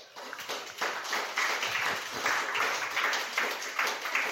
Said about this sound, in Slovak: Dneska je to taký agitačný meeting, že tlieska sa po každom vstupe.